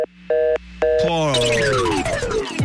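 Telephone line tones after dialling a network switchboard. A steady tone is broken by two short beeps, then a loud warbling electronic tone sweeps downward in pitch and runs on continuously.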